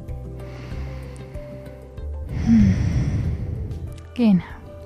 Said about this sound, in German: Einfach mal ein paar tiefe Atemzüge nehmen.